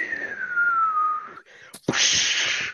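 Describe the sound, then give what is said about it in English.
A voice imitates the whistling of air resistance with one sustained whistled tone that slowly falls in pitch. A short pause and a burst of breathy rushing noise follow. “No, it was like the whistling sound from like air resistance.”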